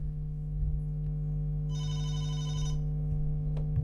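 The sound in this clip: A telephone rings with an incoming call: one bright, buzzing ring burst sounds out over a steady low hum, then stops.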